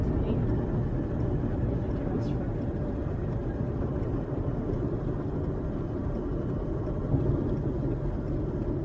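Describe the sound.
A car driving along, with a steady, faint low rumble of engine and road noise that continues without a break.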